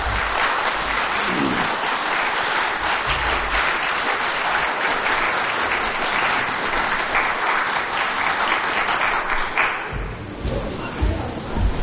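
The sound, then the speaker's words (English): A church audience applauding itself on being welcomed as a newly accredited Christian and Missionary Alliance audience: dense, sustained clapping for about ten seconds, then thinning to scattered claps. “And let me officially welcome you as the newest accredited congregation of the Christian and Missionary Alliance. So you can give yourself a hand.”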